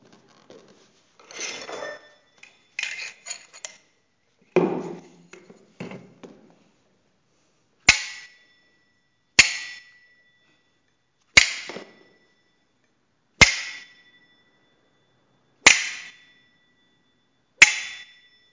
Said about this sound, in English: this will be with a foil. First beat sounds blade to blade.